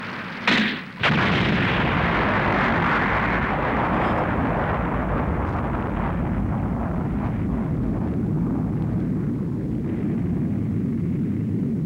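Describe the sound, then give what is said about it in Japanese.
A bomb explodes in an animated action scene. A sharp burst near the start swells into a loud, dense roar that rumbles on steadily for about ten seconds. “爆弾だ。”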